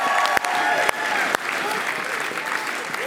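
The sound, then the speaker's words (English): A crowd gives a standing ovation to young people aged 13 to 28 on stage. The applause is loud and sustained, with a voice calling out over it and a few sharp knocks. “some of these people up here have never gotten a standing ovation. This is the first time.”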